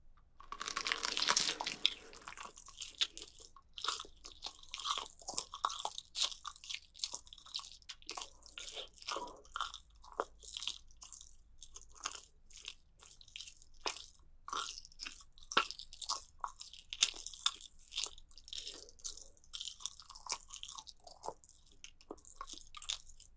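Biting and chewing of fresh, bloody meat: a loud crunching bite opens, then many wet, squishy chews and smacks follow in an irregular rhythm throughout, with no talking.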